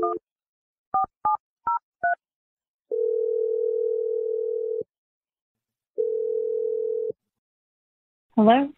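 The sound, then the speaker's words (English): A telephone dialing a number: five short keypad tones in quick succession, then two long, steady ringing tones separated by a pause. A brief voice-like sound follows at the end. “but I'm going to dial Stephanie's number, and let's see what she has to say”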